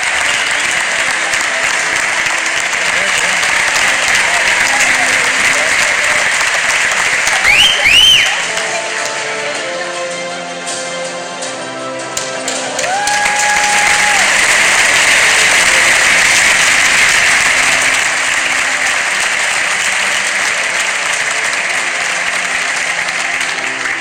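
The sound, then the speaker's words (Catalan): Loud, sustained applause from a large audience as figure skater Javier Fernández goes up to receive his best national athlete award. The dense clapping swells and holds steady through the whole ovation. “Així va pujar Javier Fernández a rebre el seu premi baix una ovació espectacular.”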